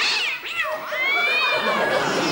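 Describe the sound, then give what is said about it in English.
Several street cats meow and yowl together in loud, high, wavering calls that overlap and bend in pitch, with a faint crowd-like murmur beneath. “Where did you find the cats? I just laid a trail of tuna from the streets, the best congregation I could find at short notice.”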